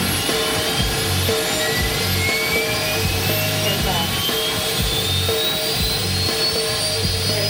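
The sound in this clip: Jet aircraft taking off: a loud, steady engine roar with a thin turbine whine climbing in pitch, over pulsing low rumble.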